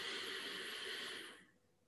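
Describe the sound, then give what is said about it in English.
A slow, deep inhalation during a guided relaxation exercise: a soft, broad, airy hiss held steadily for over a second before tapering off into quiet. “And now take a deep, deep breath.”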